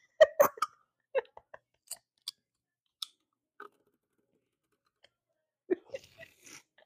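Short, dry clicks and light crackles come from a bottle of Stella Rosa wine being opened. They arrive as scattered, quiet ticks with silent gaps between them and a small cluster near the end, with no talk.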